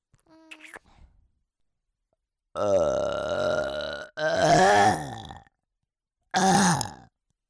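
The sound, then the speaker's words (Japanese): Three long, loud burps, each rough and voiced with a gurgling tone, separated by short silences. A few brief, faint sounds come before them. “ベロチューゲップ気持ちいいわ”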